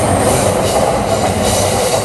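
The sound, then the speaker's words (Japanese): An outbound Sobu Line commuter train passes near Shinjuku. A loud, continuous roar of wheels and carriages on rails holds steady throughout, with a faint high squeal and no speech. “これね、総武線の下り”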